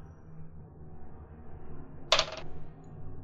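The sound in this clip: Dice rolled for an attack roll in a tabletop game give one brief, sharp clatter lasting about a third of a second, rising clearly above a low, steady background with no talk.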